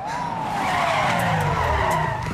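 A car skids during a chase sequence through a valley. A loud, sustained tire screech slides steadily downward in pitch for about two seconds, heard alone without voices.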